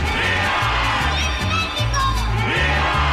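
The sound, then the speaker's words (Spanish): A crowd shouts during a Mexican patriotic celebration, raising a dense, loud roar of many voices over a steady, rhythmic low music beat that continues throughout. “Y desde la trinchera donde nos toque luchar, gritamos ¡Viva México!”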